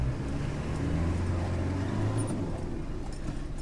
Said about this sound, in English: Right now we're driving along the alignment of an old road that Irish teams have been clearing